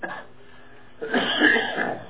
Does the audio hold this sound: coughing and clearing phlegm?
yes